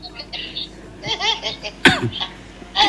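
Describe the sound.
Coughing breaks out in a few loud, harsh bursts amid laughter and people talking, with the strongest cough near the middle and another at the end.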